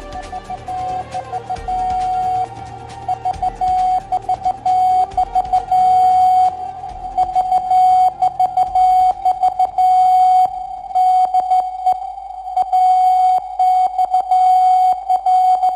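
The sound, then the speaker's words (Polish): A Morse code radio call sign, AXL, from the transatlantic radiotelegraph station at Babice near Warsaw, sounds as a steady mid-pitched tone keyed on and off in many rapid dots and dashes, loud and alone. “To AXL w alfabecie Morsa. Sygnał wywoławczy Transatlantyckiej Centrali Radiotelegraficznej w Babicach koło Warszawy.”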